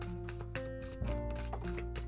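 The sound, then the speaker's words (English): Divine abundance oracle cards being shuffled and drawn produce soft papery slaps and rubbing bursts over steady sustained musical tones. “Pulling some divine abundance cards now.”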